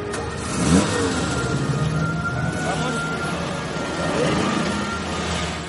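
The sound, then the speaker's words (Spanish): Car engine starting and the car driving away, a steady mid-pitched engine drone with revving swells as it accelerates. “arranca el coche y se marcha con su hija”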